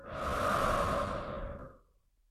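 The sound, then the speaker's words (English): Slow, soft breathing during a calm guided breathing exercise: one long airy breath swells over about two seconds and then fades into near silence. “Calm, quiet, peaceful, and open. Breathe in. Breathe out.”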